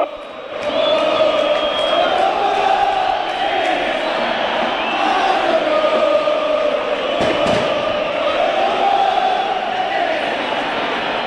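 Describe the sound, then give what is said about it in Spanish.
Football supporters singing a chant in the stadium stands, a sustained massed crowd of voices rising and falling in a steady melodic line for about eleven seconds, loud and continuous with a brief sharp bang near the end. “¿A qué se debe esta canción de los hinchas de Banfield?”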